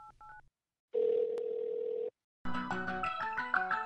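A telephone being dialled to place a call: a few quick keypad tones, a pause, then a steady dial tone lasting about a second, followed after a short gap by a busy melodic passage.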